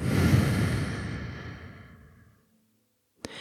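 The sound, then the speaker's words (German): A deep breath out: a long, airy exhale that starts strong and fades gradually over about two seconds, then silence and a single brief click. “Atme nochmal tief ein und aus.”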